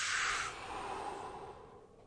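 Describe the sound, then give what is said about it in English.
A faint, smooth exhale during a calm breathing exercise, heard as a soft breathy hiss that is strongest at first and then gently fades away over a couple of seconds, with no talking. “Full deep breath in. And a smooth breath out.”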